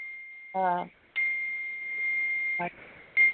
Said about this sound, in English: is that my computer? My phone is dinging. I'm sorry. My phone is dinging.